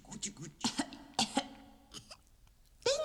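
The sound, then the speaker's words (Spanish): A few short, raspy coughs from a pregnant woman in a TV show, abrupt bursts set among other voices. “acaba de ver a como la guata de March embarazada tosió porque están la hermana fumando delante de ella”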